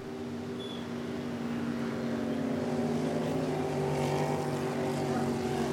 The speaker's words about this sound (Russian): Это моторка.